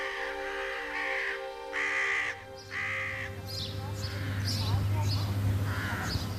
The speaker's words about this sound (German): Hierauf erhoben die Raben sich von der Stange und krächzten